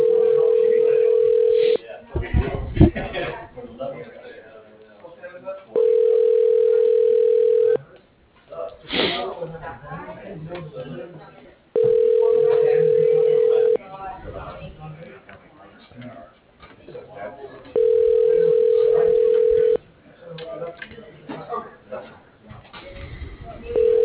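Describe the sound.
Telephone ringback tones while a call to an office extension goes through an automated phone directory: four steady, identical ringing tones at regular intervals, with talking and other line noise in between.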